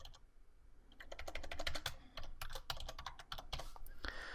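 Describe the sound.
Password being typed on a computer keyboard: many quick, irregular key clicks in uneven bursts with brief pauses, moderately loud and without any talking.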